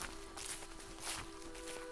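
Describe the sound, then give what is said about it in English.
Walking boots crunch up the ranger path toward the summit of Mount Snowdon, faint soft footfalls in an uneven rhythm under a steady hum. “Make sure your walking boots are tightly done up as we now proceed to climb the ranger path up to Mount Snowdon.”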